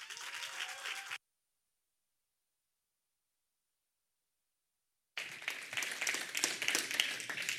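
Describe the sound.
An audience at a morning gathering applauds to welcome a speaker giving a talk on worship. Clapping is heard in two bursts, a short one at the start and a longer, livelier one at the end, separated by several seconds of silence.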